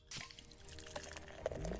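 Legend Extra Stout beer pouring, a brief, faint liquid flow with soft gurgles and splashes lasting under two seconds.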